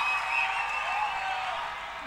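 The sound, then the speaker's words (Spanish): A live audience's applause forms a dense, continuous wash of clapping that slowly fades toward the end. “Un fuerte aplauso para Kea.”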